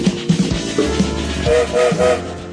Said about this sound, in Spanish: como todos los días el tren se pone lentamente al movimiento. Escucharon el silbato, ya estamos en marcha